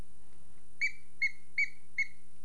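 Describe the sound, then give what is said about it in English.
A children's book squeaker gives four short, high-pitched squeaks at an even pace, each clear and alone over a faint low hum. “There's a squeaker in that book.”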